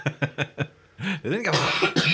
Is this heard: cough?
yes